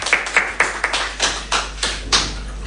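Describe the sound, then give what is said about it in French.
Applause for a DJ school team comes as a few sharp, separate hand claps at a slow, uneven pace rather than a dense ovation. “Du bruit pour Digadi Annecy.”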